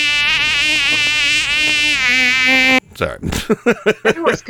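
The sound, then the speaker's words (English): A mosquito buzzes with a loud, steady, high-pitched whine lasting nearly three seconds, then stops abruptly as people start talking. “And my pet mosquito.”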